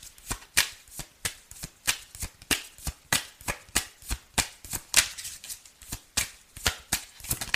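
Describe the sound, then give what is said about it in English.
Tarot cards are shuffled in many crisp, evenly spaced slaps and riffles that repeat in a steady rhythm, each snap sharp and bright against a quiet background. “Let me go ahead and take another card. May I have another card, please?”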